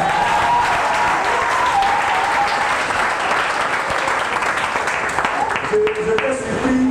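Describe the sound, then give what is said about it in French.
Congregation clapping and acclaiming the Lord during a church testimony: loud, sustained applause with voices calling out over it. “Oh, tu ne vas pas acclamer le Seigneur.”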